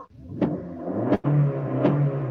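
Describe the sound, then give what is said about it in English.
A loud four-cylinder car engine revs hard with a deep, continuous rumble. A few sharp surges rise out of it, and a brief dip near the middle is followed by a throaty, sustained drone. “Yeah, it's the loudest four-cylinder car you ever hear in your life.”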